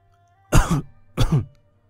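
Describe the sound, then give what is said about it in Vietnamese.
Two harsh, dry coughs from a young woman, loud and separate with a short pause between them, low and throaty, with no talk. “Tiểu phu nhân đỏ bừng mặt, ho khan vài tiếng kịch liệt.”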